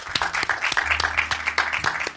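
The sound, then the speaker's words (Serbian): Audience applause at a live talk event, with brisk, steady clapping throughout the whole short stretch. “Aplauz za Ivana Žagara.”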